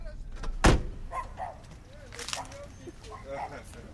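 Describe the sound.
A car door shuts with one sharp thump as people get out in front of a home, and people go on talking over soft background noise afterward.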